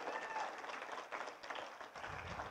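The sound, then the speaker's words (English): Applause from a church audience welcoming online viewers during a service: a steady wash of dense clapping that holds at an even level for the whole stretch. “Let's welcome everybody who's watching online. Let's give them a big hand.”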